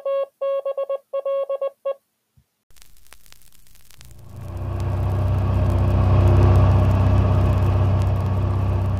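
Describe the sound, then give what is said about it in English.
A car drives on a road out of Washington toward the airport on a sunny morning. A short run of tones comes first, then a steady low rumble of road and engine noise builds and holds loud. “It is a clear, sunny morning in September as Oscar Goldman and Steve Austin drive out of Washington toward the airport.”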